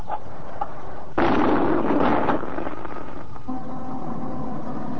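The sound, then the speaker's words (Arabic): The iftar cannon in Alexandria fires at sunset: one heavy boom lands about a second in and rolls on for roughly a second before sinking back into a steady, muffled hum. “هنا الاسكندرية وانطلق مدفع الافطار.”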